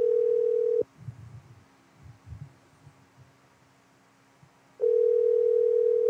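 Telephone dial tone while placing a call. A loud, steady, even tone cuts off after under a second. Faint low thumps and rustles follow, then the tone returns at full strength.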